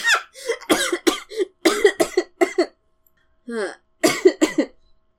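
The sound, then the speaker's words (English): A person coughing repeatedly in short, harsh bursts that come in quick clusters, pause briefly, then resume with a few more rough coughs. “with how much you're coughing, you'd think you'd be the one with the sore throat here.”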